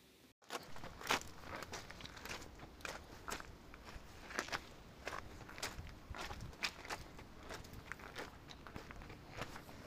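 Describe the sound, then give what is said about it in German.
Footsteps cross the ground at the Campo Santo Teutonico in the Vatican: many soft, crunching steps in a steady walking rhythm, faint and with no talk. “Ich laufe gerade auf einer ganz besonderen Erde.”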